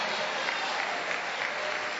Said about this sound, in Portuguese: Aplaude a Jesus e dá glória.